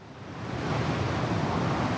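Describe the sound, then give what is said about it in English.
Loud, steady roar of water blasting from two huge river pipes wide enough to drive a truck through, spraying across the river as a continuous rushing hiss that builds slightly and holds. “I'm looking at two huge water pipes. And when I say huge, you can actually drive a big truck through each one of them. And they're blasting water, which is spraying all across the bit of the river”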